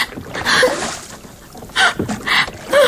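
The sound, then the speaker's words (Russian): Oars stroke the water as a rowboat moves out onto a river: a few separate, splashy strokes with quiet gaps between them. “несколькими ударами весел Нок вывел лодку на середину реки и стал грести быстрее.”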